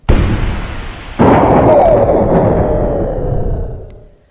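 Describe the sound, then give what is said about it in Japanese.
Hand grenades exploding with a flash among a crowd of villagers: a sharp blast, then a second, heavier burst that swells into a long, loud rumbling roar before fading out. “閃光とともに炸裂音が周りに響き渡りました。”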